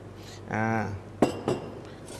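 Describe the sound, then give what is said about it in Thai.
Finely sliced lemongrass and mature galangal are pounded in a heavy stone mortar, giving two sharp, solid thuds in quick succession after a brief voiced hum. “ข่าแก่อีก2ช้อนโต๊ะนะครับแล้วก็ตำให้เข้ากันครับ ในการตำนะครับวันนี้เราเลือกใช้เป็นครกหินเพราะครกหินเนี่ยมีน้ำหนักที่ดี”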